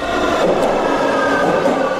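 A metro train sound effect gives a loud, steady rumbling drone with a thin whining overtone, holding level throughout without breaks.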